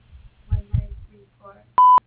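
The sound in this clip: A voicemail beep sounds as a single loud, steady electronic tone lasting about a quarter second, following a few brief fragments of a voice.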